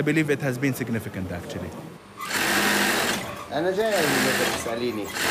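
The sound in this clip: A sewing machine stitches the seams of a dress in a tailor's workshop in Sheikh Jarrah, Jerusalem. After a stretch of talk, its steady, loud whirring starts and runs continuously while a voice keeps speaking over it.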